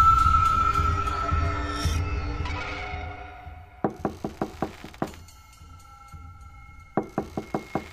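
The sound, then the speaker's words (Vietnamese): A man knocks hard with his hand on the closed door of a room in a row of rented rooms: a quick burst of about five knocks, one lone knock, then another rapid burst, following a fading tonal drone. “Tiếng gõ cửa đã không ngừng vang lên bên ngoài của một căn phòng trong dãy phòng trọ.”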